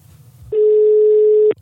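A telephone call ringing out as a single steady electronic ring tone. The tone is loud and level and lasts about one second, with no voices.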